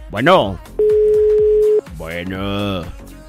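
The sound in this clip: A steady telephone tone on a third call attempt sounds alone for about a second, flat and unbroken, between stretches of talk.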